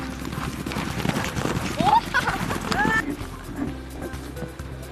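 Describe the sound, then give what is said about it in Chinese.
Horse hooves gallop in Xinjiang's Zhaosu County, a rapid, dense drumming of hoofbeats that stays fairly loud throughout, with voices mixed in. “马跑的时候像飞的感觉一样。”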